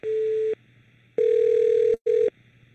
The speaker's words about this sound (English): Awful lot of beeping and ringing. This doesn't sound promising for an answer.